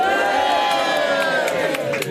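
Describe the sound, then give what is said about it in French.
Crowd at an open house in the RTS building: a continuous, loud din of many mingled voices with some cheering, busy and unbroken throughout. “Et d'ailleurs, je ne suis pas seul, je suis entouré par une multitude de foule.”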